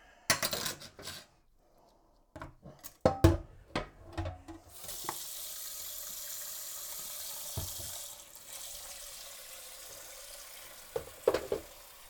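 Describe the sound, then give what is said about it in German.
Tap water runs steadily into a sink for several seconds during rinsing, after a few sharp clinks and knocks at the start. More clunks follow near the end as the flow continues. “Jetzt müssen wir mal hier mal noch kurz spülen.”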